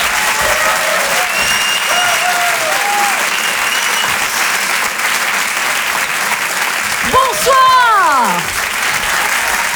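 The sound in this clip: Audience applause welcoming a comedian onto the stage, steady sustained clapping with a few whistle-like calls early on and a swell of cheering voices near the end.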